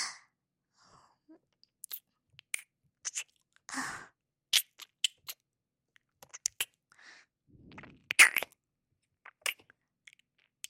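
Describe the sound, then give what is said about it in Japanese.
ASMR ear nibbling: wet mouth clicks, soft smacks and breathy bursts come close together but irregularly. Each is short and quiet, with near silence between them and no talking. “ハムハム、やっぱり先生の耳は美味しいですね。”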